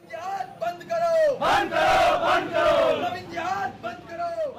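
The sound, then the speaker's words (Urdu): At a Hindu nationalist organisation's rally in Saharanpur, western Uttar Pradesh, a crowd chants slogans against 'love jihad'. Single shouted calls open and close the passage, and a louder, rougher surge of many voices answers in the middle. “مغربی اتر پردیش کے سہارنپور میں ایک ہندو نواز تنظیم کے اجتماع میں لف جہاد کے خلاف نعرے لگائے جا رہے ہیں۔”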